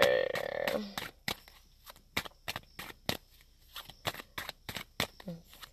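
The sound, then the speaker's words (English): Shuffling of an oracle card deck: a long, irregular string of crisp card slaps and snaps, fairly faint, with a brief voiced sound near the start. “So let me go ahead and shuffle out of the Native Hearts Healing.”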